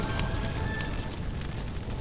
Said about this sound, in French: Le feu déchaîné fait rage à travers les bancs et les rames et les peintures des poupes de sapin.